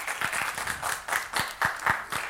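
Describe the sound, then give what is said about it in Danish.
An audience claps in response to a question at a talk on brain technology: many short, uneven claps in loose bursts, moderately quiet, with no voices. “Og I kan jo lige klappe en gang, hvis I har det.”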